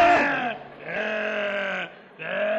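A man imitates a sheep bleating in a comic exchange, giving three drawn-out, nasal, wavering bleats. The middle bleat is the longest. They are loud and stand alone without other talk.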